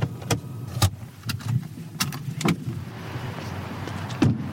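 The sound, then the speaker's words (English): A Volvo car pulling in at the company's headquarters at the end of a drive: a low, steady hum of the car with many sharp clicks and knocks scattered throughout. “So we are just pulling back into Volvo's headquarters and our journey is complete.”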